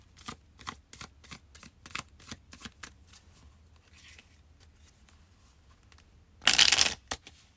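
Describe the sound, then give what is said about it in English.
Playing cards being shuffled: a steady series of crisp, evenly spaced flicks, then a short, loud, dense riffle near the end, with no talking. “So we're going to pull one more card here.”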